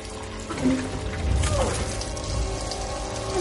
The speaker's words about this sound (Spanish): El agua sale del fregadero y le cubre la nariz.